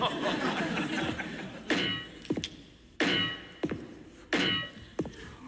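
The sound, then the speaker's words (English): A metal leg thumps in a comedy radio sketch, giving three heavy, dull thunks at steady intervals, each followed by a lighter, sharper knock. “I'm not sure about this new metal leg. Boof! Boof!”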